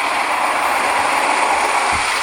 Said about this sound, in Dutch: Nou, de Porsche die gaat een keer door de zwabbers en door de drogers of zo.